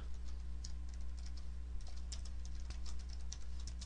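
Someone typing code on a computer keyboard, producing quick, irregular soft clicks in a steady stream over a constant low hum.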